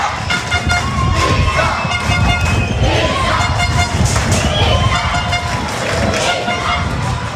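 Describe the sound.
Rugby crowd noise at a Nice home match against Stade Montois: a constant loud roar with repeated horn toots and blasts sounding through the din.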